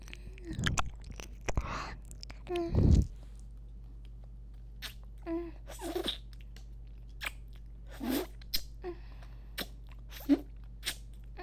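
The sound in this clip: Crunchy bites and chewing of a large cucumber, with a few loud, wet crunches at the start followed by many softer, irregular chews against near silence.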